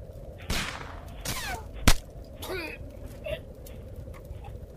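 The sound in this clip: A single sharp gunshot cracks out in a tense film scene, set among a few softer rushing bursts of noise before and after it.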